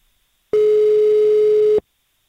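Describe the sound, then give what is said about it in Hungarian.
A single steady telephone line tone sounds while a radio listener is being called, holding one unwavering mid pitch for a little over a second before cutting off cleanly, with silence on either side. “Hívjuk gyorsan a naphallgatóját.”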